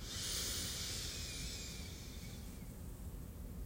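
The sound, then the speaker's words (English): A deep inhale during a guided meditation: a steady, airy hiss lasts about two and a half seconds, then fades into a quiet background, with no talking over it. “Let's inhale together as we allow.”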